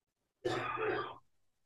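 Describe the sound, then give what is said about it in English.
A single rough throat-clearing from someone with something caught in the back of the throat: a short, gravelly, voiced grunt lasting under a second, then silence. “I am so sorry. I keep coughing. Oh, my God. I have something in my throat.”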